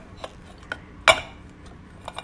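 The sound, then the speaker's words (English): Cutlery clinks against a dish while garden mint ice cream is scooped: a few light, quiet taps and one sharper clink in the middle, heard alone. “I'm gonna have a couple scoops. Garden mint. Don't mind if I do.”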